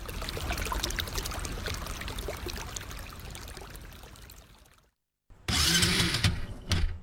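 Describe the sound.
A motorcycle engine starts: several seconds of steady rushing noise end in a brief silence, then the engine fires with a loud burst and runs roughly for about a second and a half.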